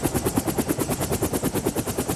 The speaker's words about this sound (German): Der Helikopter startete. Flog eine große Kurve über dem Golf.